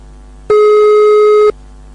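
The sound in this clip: A single loud, steady telephone line tone sounds while a call is being placed, holding one pitch for about a second and then stopping abruptly into quiet.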